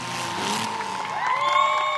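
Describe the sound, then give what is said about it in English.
Demolition derby fans cheer in packed stands as battered, souped-up cars smash each other in an arena. The dense crowd roar holds steady, with shrill whoops and whistles rising above it in the second half. “Battered, souped-up cars bash each other to pieces in the arena. Last one moving on its own power wins. Fans packed into the stands cheer every savage blow.”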